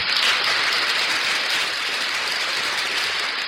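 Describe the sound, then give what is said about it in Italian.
Applause for a guest, a municipal councillor, on an Italian radio show. The clapping is a dense, even, hissing wash that holds steadily throughout with no talk. “facciamo un applauso ad Elisa, l'assessore Rossetto”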